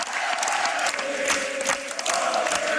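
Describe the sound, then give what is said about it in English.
A crowd at a Quebec political party gathering breaking into song, a loud, sustained mass of voices mixed with clapping and cheering. “And at this, the crowd breaks into a different song.”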